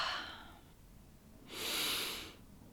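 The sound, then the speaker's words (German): A deep breath taken during a guided relaxation exercise: a soft, airy rush of breath that swells and fades, following a fainter breath trailing off at the start, all quiet with no speech. “Und dann nehmen Sie drei tiefe Atemzüge.”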